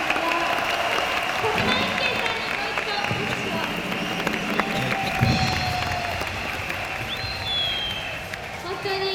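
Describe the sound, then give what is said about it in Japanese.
Audience applause on a 1970s Japanese radio show featuring a pop idol group, a sustained, fairly loud wash of clapping that runs the whole time, with voices and some tonal sound layered over it. “拍手。”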